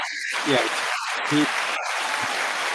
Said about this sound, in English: You didn't know you were getting applause, did you, Peter?